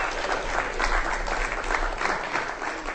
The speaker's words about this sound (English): So Doak, ladies and gentlemen, give him a hand, Matthew Doak.